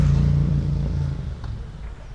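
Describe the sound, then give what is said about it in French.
A four-stroke engine decelerating with the throttle cut, drawing in air without fuel: a low, steady rumble with a faint hum that gradually softens over about two seconds. “Alors on entend la décélération. Là. Là, c'est vraiment quand on coupe les gaz et qu'on aspire de l'air sans carburant.”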